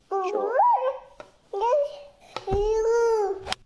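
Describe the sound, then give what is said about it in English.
A baby babbles in three short sing-song bursts of cooing vocalisation. The pitch swoops up and down, with brief pauses between the phrases. “Sounds like a baby. Yeah, it is baby.”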